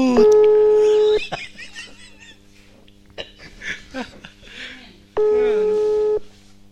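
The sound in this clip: A telephone busy signal during a call attempt: two long, steady electronic tones, each about a second, with voices and laughter in the gap between them.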